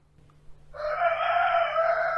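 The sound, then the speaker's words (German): A rooster crows once, a single sustained, bright call that enters after a quiet lead-in and holds steady and loud to the end. “ein zweites Zuhause mit einem Hahn, wie wir gerade gehört haben”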